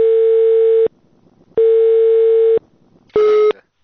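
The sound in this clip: Telephone tone after a call is hung up: a steady, mid-pitched beep repeats in loud pulses separated by short silences, the later pulses shorter and harsher.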